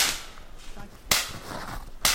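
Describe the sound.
A .22 rifle fires at a live tree branch about 40 feet up, giving a few sharp, whip-like cracks with abrupt onsets and quick decays spaced roughly a second apart.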